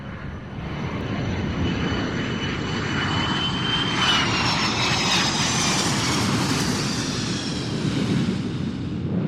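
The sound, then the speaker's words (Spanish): Roar of a jet airliner landing at Kansai International Airport, which is built on an artificial island. The loud engine rumble holds steady with high whining tones layered above, brightening somewhat midway through. “aterrizamos en el Aeropuerto Internacional de Kansai, KIX, que está construido sobre una isla artificial”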